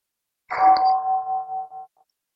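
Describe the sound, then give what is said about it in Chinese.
A single meditation bell strike rings out during a meditation teaching, a steady tone that wavers up and down in loudness and fades away over about a second and a half, with nothing else heard. “让我们听这个钟声，感觉到了吗？钟声是高高低低的，”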